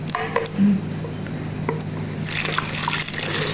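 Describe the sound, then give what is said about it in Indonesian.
Liquid is poured into a container, with irregular splashing, dripping and sloshing that swell into a louder, fuller wash toward the end. “Langsung aja kamu tuang ke sini semua.”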